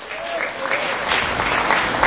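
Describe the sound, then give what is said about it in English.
An Enid Majors baseball crowd claps and cheers after an RBI single in the top of the fifth, a dense, steady roar of many hands and voices that swells slightly near the end. “And that brings this Enid Majors crowd to life.”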